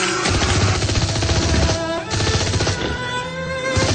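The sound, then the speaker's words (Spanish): Machine-gun fire through a shattered window shutter in a radio drama, a loud, continuous rattle of rapid shots in dense noise, briefly easing near the middle before resuming. “Juan saca su ametralladora y dispara contra todo lo que se mueve amenazante”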